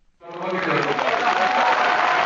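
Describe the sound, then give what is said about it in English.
A crowd of supporters cheers and applauds to greet Georgia's new president, the noise rising suddenly into a loud, steady roar that holds to the end. “A crowd of cheering supporters greets Georgia's new president.”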